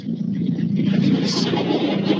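Engine rumble of a BMW rally car as it pulls to a stop: a steady low drone with a rough, throbbing texture that holds at an even level throughout.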